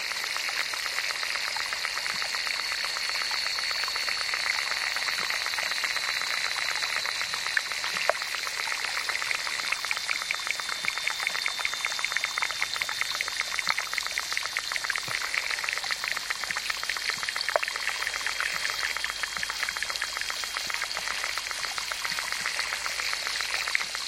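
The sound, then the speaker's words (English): Underwater insects in a small pond in Mora, New Mexico, recorded by hydrophone, producing a dense, steady crackle of ticks and clicks with occasional sharper pops and a faint high whine. “Using an underwater recording device called a hydrophone, David Dunn collected this collage of insect sounds from a small pond in Mora, New Mexico.”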